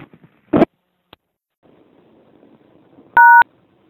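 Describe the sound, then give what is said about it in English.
A single loud touch-tone key beep sounds on a payphone near the end, following a few faint ticks, one louder thump and a soft stretch of low background noise. “Well, I obviously dialed the wrong number, but standing out here at a payphone trying to reach a certain person”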